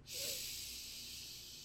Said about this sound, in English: So deep breath in through the nose and out through the mouth.